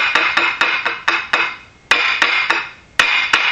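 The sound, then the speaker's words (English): Two eggs being cracked by knocking them against a greased plastic pan: many sharp, hard clacks in uneven bursts, each ringing briefly before the next strike. “So now I'm going to crack my 2 eggs, being that I've got the pan all greased here.”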